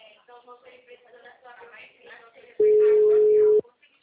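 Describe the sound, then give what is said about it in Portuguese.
A ringback tone sounds while a phone call is being placed: one long, steady, mid-pitched tone of about a second. It follows a stretch of quiet talking and stops sharply. “Calma aí que eu tô ligando pros meus.”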